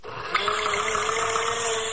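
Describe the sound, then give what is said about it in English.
A blender straining on too much ice for a fruit drink gives a steady, high, strained motor whine that jumps in level early on and then holds. “That doesn't sound right. What happened? Did you put in a lot of ice? Yeah, I guess I did. That's the problem. You put in too much ice so the blades can't move.”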